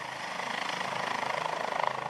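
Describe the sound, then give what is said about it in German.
Rescue helicopter landing on a hospital rooftop with its rotors still running: a loud, steady, rapid rhythmic chopping over a broad engine roar, with no voices. “40 Minuten nach Abflug kommt der Rettungshubschrauber Christoph 25 zurück nach Siegen. Markus Schelt landet ihn auf dem Dach des Jungstilling-Krankenhauses. Noch während die Rotoren laufen,”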